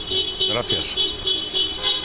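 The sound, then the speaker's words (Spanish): Car horns honking from cars passing a party headquarters after an election, with several short toots repeating under continuous Spanish speech. “Están muchos amigos tocando el claxon cuando pasan por delante de la puerta”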